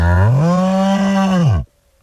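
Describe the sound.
A cow gives a single loud, drawn-out moo lasting well over a second. The low, steady pitch sinks at the very end before cutting off into near silence.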